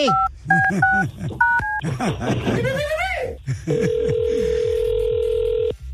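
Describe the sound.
A phone being dialed and then ringing: a few quick keypad tones, a burst of lively voices and laughter, then a long steady ring tone that holds to the end.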